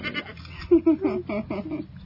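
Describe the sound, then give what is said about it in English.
Miniature goats bleat among a family's livestock: a few short, wavering, nasal bleats in quick succession, fairly loud against a faint background. “The family has a number of animals, birds, show animals, and some miniature goats”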